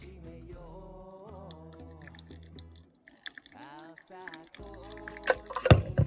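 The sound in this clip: Hot water trickles steadily over ground coffee as 60 g is poured for hand-drip brewing. The sound starts faint and grows louder and more splashy toward the end, with a soft tonal background underneath.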